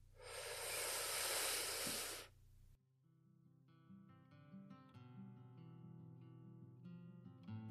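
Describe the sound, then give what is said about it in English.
A person takes a long, deep breath in, a loud breathy hiss lasting a couple of seconds, which then gives way to soft, gentle background music. “So let's go ahead and take a deep breath in”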